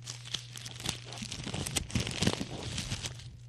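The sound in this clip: A sealed envelope is torn open, giving soft ripping and crinkling paper sounds. The quiet, continuous rustle lasts about three seconds.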